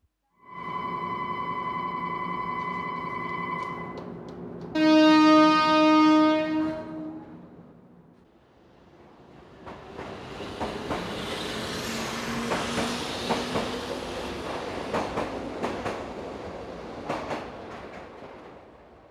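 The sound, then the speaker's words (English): A train horn gives two sustained, harmonic blasts, the second louder, before the train starts and runs. Then a broad, steady rumble builds with rhythmic clatter and scattered sharp clanks, staying loud to the end. “Start the engine. Start the train.”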